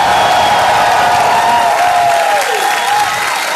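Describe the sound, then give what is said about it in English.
Live theater audience at Largo in Los Angeles cheering and applauding, a loud, dense mix of clapping and voices sustained throughout, with a whooping cry rising above the crowd partway through. “We are here tonight at Largo, our home in Los Angeles, with an amazing audience. You just heard them.”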